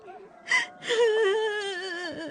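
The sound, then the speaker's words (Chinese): An older sister cries alone with no words, in a wavering, whimpering voice. A short gasp-like catch comes first, then a sustained quavering wail that slowly sags in pitch and stays fairly soft. “不行，是姐姐在哭，我要去看看。”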